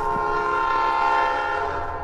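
A train passing on railroad tracks beside a wooded area, its loud, steady horn-like tone held over a low rumble for about two seconds, with no voices.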